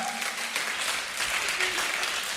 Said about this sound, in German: Komm mal, einen Applaus für euren Döner.